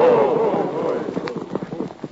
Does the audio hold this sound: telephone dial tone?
no